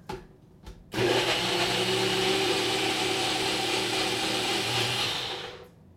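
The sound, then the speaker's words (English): A NutriBullet blender blends a vegetable drink: a couple of short bumps, then a loud, steady whirring roar for about four seconds that tapers off at the end. “And I put my little lid on this, and now we're going in for the NutriBullet sound.”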